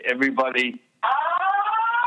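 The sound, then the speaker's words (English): An electronic fire alarm goes off in a building as a loud, steady, buzzing tone rich in harmonics. It follows a short burst of speech and a brief pause, then continues unbroken to the end. “everybody has to have the fire alarm. The what perfect time, you're right. Thank you very much. I'm going to let you get out of that building before something really bad happens.”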